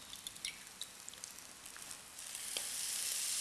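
An egg sizzles in a frying pan as it is seasoned with light soy sauce. Scattered crackling pops sit over a soft hiss that swells louder and brighter in the second half.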